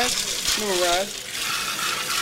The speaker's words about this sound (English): Let the water run in there, and I fill it up like to this knife.